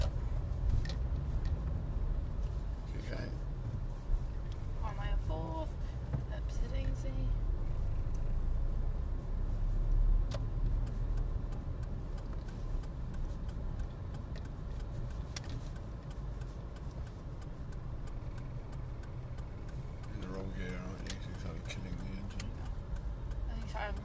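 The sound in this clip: Car driving during a driving lesson, with a steady low engine and road rumble throughout, a few light clicks and rattles on top, and faint voices at times.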